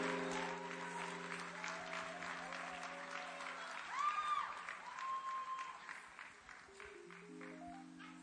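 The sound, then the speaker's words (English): Audience applause at a church testimony service welcoming a speaker, steady clapping from many hands with sustained musical tones alongside, faint overall and thinning toward the end. “Please help me welcome Stephanie to share her testimony with us. Please put your hands together as we welcome Stephanie.”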